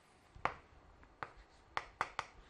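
Faint pen taps and ticks on a surface as a cosine graph is quickly sketched, five short sharp clicks spread unevenly, with the last three close together.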